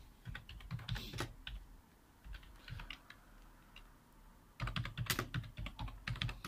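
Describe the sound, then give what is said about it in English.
Someone types a search on a computer keyboard, with quick, irregular clicking keystrokes in two bursts separated by a brief lull. The typing is faint and no one talks. “go type that into Google, though. Most played sports in America.”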